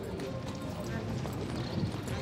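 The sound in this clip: Hooves clop as a mare wearing protective transport boots is led into a horse transporter at a show-jumping derby. The footfalls are irregular and sit under steady talk.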